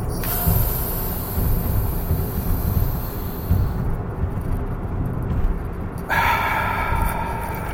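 A deep breath is drawn in, held, then exhaled, producing airy, rushing breath noise over a steady background hiss.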